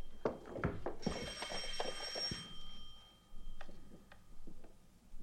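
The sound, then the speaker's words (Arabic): A telephone bell rings in one bright, high burst lasting about a second and a half, surrounded by sharp clicks and thuds before and after. “الو من رنة التليفون عرفتك”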